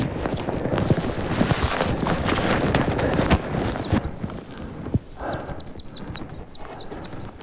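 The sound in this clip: A reed whistle blown to imitate the call of a hazel grouse in a snowy forest on Changbai Mountain: long high thin whistled notes, then a rapid run of short trilled notes, over rustling noise.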